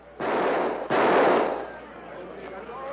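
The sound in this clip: Rifle firing its last cartridges: two loud, harsh blasts in quick succession, each holding for a moment, then a fading tail.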